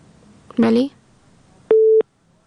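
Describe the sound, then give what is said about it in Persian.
A telephone busy tone follows a dropped phone-in call from a listener in Ghazni. A single steady, mid-pitched beep comes after a short burst of voice, then the line goes quiet. “متاسفانه که تماس شنونده ما قربان علی از غزنی قطع شد.”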